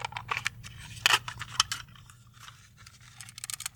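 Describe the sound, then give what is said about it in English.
Plastic wrapping being cut and peeled off a sealed cassette tape: quiet crinkling and snipping crackles in uneven bursts, with a sharper cluster near the middle. “Yes, and for your AMSR pleasure, I'm going to open this cassette.”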